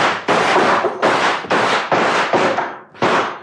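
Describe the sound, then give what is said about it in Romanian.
A gun salvo fired on command: several loud, sharp, noisy bursts in quick succession, each blast ringing on briefly before the next, with no voices. “La comanda mea am descărcat o salvă. Atențiune! Foc!”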